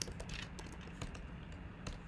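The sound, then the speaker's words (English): Faint typing on a computer keyboard, with soft, irregular key clicks scattered over low background noise. “Let's just type that in.”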